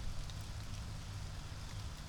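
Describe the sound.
Steady rain falling outdoors, a faint, continuous hiss with a soft low patter that stays even throughout, with no other sounds.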